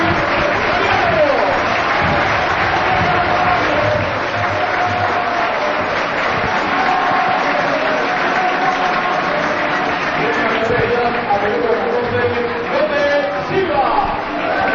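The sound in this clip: A football stadium crowd at Campo del Collao applauds a departing player, with dense, continuous clapping and crowd noise that stays loud and even throughout.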